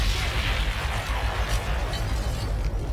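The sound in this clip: A bomb-drop explosion sound effect gives a loud, sustained, rumbling roar that stays dense and steady throughout, with no separate distinct blasts.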